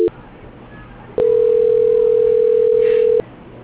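A steady, mid-pitched telephone tone plays while a bank call is being transferred. One continuous beep lasts about two seconds, after a brief click and faint line hiss.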